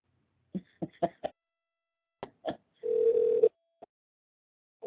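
Telephone tones while a call is redialed: a few short bursts, then a sustained low ringback tone, followed by a single short beep.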